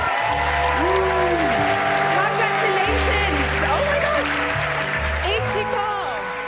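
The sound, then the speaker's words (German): Applause rings out at the Reeperbahn Festival's Anchor Award, an international music award, as steady clapping from the audience mixes with sustained music underneath and a voice heard over the top. “So klang es in diesem Jahr beim Anchor Award, dem International Music Award des Reeperbahn Festivals.”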